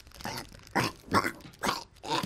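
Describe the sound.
A biscuit being eaten close to a microphone, ASMR-style, with a few loud, dry, crackly crunches bitten in a steady, evenly spaced rhythm.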